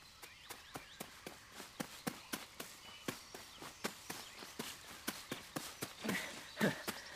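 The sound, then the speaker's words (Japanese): Running footsteps in a forest, faint and quick: many evenly spaced steps at a fast running pace, with a few heavier scuffs near the end. “森の中でそんなに走ったら危ねえぞ。”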